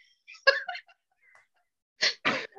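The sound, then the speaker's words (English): A man upstairs blows his nose in two brief, fairly faint honking bursts in quick succession, after some softer scattered sounds. “He can blow his nose and sound like a kazoo. He should play a tune. Sounds like a baby elephant.”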